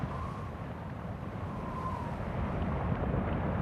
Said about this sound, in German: Eine schwarze Welle kriecht schwerfällig am Ufer hoch, drückt sich platt und entfärbt sich zugleich.